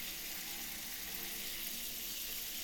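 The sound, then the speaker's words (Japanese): Shower water runs over hair during a hair wash, a steady, even hiss with no breaks, faint and without talk. “だからこうしてしっかりと隅々までシャワーで髪を濡らして”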